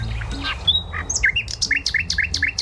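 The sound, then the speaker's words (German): A nightingale sings a quick run of bright, whistled chirps that turns into a rapid series of repeated, high notes. “Ist das ein Spatz? Nein, oh. Das ist eine Nachtigall.”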